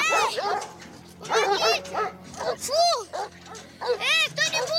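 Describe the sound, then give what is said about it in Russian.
Dogs barking and yelping as they run out at a gate, many loud, sharp harmonic barks and yips in uneven bursts, with some whimpering mixed in. “Выбегают собаки.”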